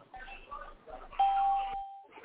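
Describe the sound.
A single steady electronic chime rings out as callers join a phone conference call, sounding briefly midway through with voices before and around it.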